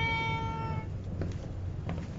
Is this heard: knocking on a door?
no